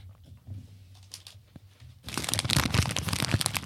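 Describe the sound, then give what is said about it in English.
Plastic cling wrap being crinkled: a quiet low hum with faint ticks first, then a sudden, dense crackling rustle that carries on to the end. “Should I crinkle up like a saran wrap or anything?”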